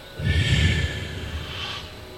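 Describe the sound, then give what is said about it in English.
A deep exhale during a guided breathing exercise: one long, breathy rush of air lasting about two seconds, strongest at the start and slowly fading, with no voice. “Open your chest because you will need to breathe. Now exhale deeply.”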